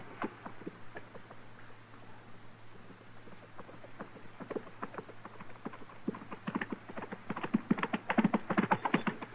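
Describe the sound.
A galloping horse carrying a rider in a hurry over dusty ground: rapid, rhythmic clip-clopping hoofbeats that begin faint and grow steadily louder.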